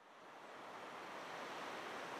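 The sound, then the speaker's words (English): Wind blows across a hilltop by the sea as a faint, steady rushing hiss that swells slightly and then holds, with no voices. “We might get down out of this wind all the same.”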